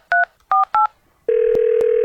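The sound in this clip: Telephone keypad dialing tones: three short, loud touch-tone beeps in quick succession, then a steady continuous tone broken by two brief clicks.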